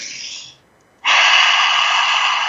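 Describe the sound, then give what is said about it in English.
One person takes a deep breath: a breathy half-second inhale, a brief silence, then a loud, sustained rushing exhale that carries on to the end. “what I want to invite you to do today is to take a deep breath with me.”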